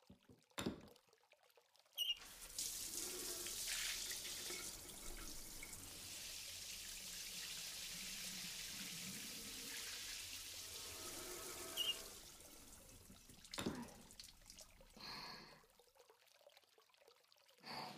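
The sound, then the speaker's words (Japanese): Running water rinses someone off at a hot spring, a soft, steady stream pouring for about ten seconds. A few brief splashes and knocks follow once the flow stops, all of it quite faint. “すみません、洗い流しますね。”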